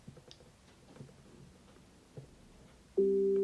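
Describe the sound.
A steady electronic alert tone from an Echo Show 15 smart display after its microphone on/off button is held for a few seconds; it starts abruptly near the end and holds loud, after a quiet stretch with faint clicks.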